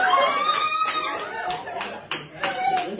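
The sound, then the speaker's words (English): Families of three released female hostages, held for 471 days, cheer with joy and relief. Excited shouting voices mix with bursts of clapping in a continuous, lively din. “That's the sound of joy and relief from the families of the three female hostages released by Hamas today after being held for 471 days.”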